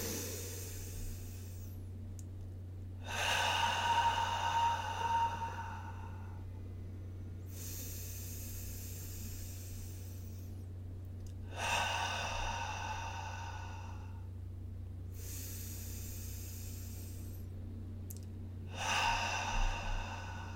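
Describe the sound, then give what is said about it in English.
Slow, deep breaths drawn in through the nose and released through the mouth during a group breathing exercise. Three long, airy exhales are separated by quieter pauses, all over a steady low hum. “let's take three breaths together as the one, in through the nose and out through the mouth.”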